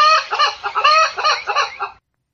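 A chicken in a video game clucks in a quick, loud series of short, nasal, bouncing calls, heard alone and ending abruptly.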